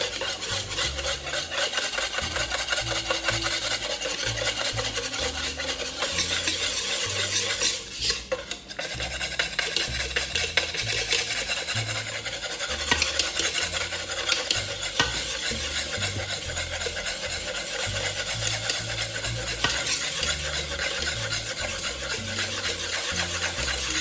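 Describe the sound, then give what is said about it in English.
A whisk beats oil into eggs to emulsify them, making a fast, continuous rhythmic scraping and clinking against the bowl that runs without letup apart from a brief break partway through. “you're just emulsifying oil into eggs no big deal going to take you a couple of minutes, so stay at it.”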